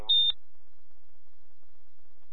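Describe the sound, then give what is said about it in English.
A single short, high-pitched electronic beep from a building alarm, followed by near silence. “Can someone attempt to reset the alarm?”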